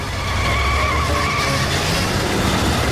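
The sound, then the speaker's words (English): Tires skid as an ambulance swings hard round a corner, a loud, continuous screech that holds steady for about three seconds with no voices over it. “The ambulance skids round and smashes sideways into a wall.”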